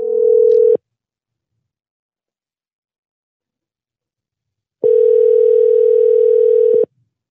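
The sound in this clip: Ringback tone of a telephone line ringing while a Massachusetts number is being called back: a steady, low electronic tone that cuts off at the start, then after about four seconds of silence sounds again for roughly two seconds.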